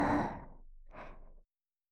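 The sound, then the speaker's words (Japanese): A deep breath drawn in two soft, breathy phases, the first louder and the second fainter, ending in silence. “はい、深呼吸。”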